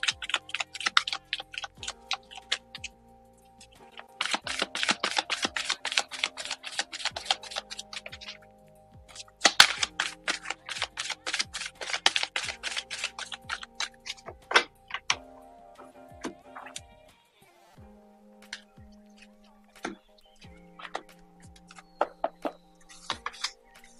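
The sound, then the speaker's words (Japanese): A deck of cards is shuffled during a card reading: several bursts of quick, fluttering riffles alternate with scattered single taps and pauses, all fairly soft, with faint sustained tones underneath. “それでは、カードシャッフルします。少々お待ちください。”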